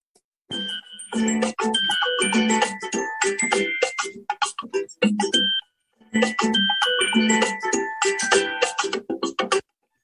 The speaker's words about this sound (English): So let's spin the wheel.